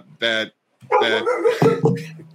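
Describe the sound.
A dog barks and yips in a few short bursts: one brief bark, a pause, then a quicker run of higher, whining barks.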